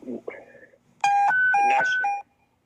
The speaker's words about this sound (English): Are you sounding the panic alarm? Is that the panic alarm? Yeah, that's not a good panic alarm.